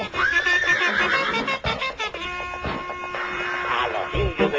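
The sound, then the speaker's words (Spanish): A horse whinnies near the start, a brief high, falling neigh set among dense, busy sound that continues throughout. “A los indios que vienen los caballos.”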